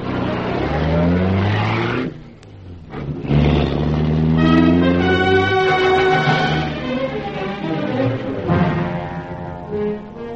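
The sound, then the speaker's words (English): A sports car engine drives and revs, its tone climbing and falling through the gears, with a brief dip in loudness near two seconds before it pulls hard again. “Drove the sports job round to Sir Giles Davenport's Copacabana apartment, parked it underneath alongside his Rolls.”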